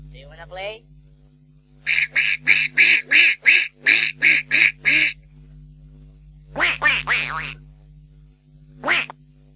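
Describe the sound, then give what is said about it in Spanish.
A duck quacks: a rapid, rhythmic run of about ten loud, nasal quacks, then a short cluster of a few more and one final quack after a pause, with a steady low hum underneath. “¿Sabías que el graznido del pato no tiene eco?”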